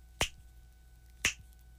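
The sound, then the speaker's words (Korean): Two crisp finger snaps, about a second apart, ring out alone against a quiet, nearly silent backdrop. “이렇게 손가락 튕기는 소리가 들어간 노래들 한번 모아봤습니다.”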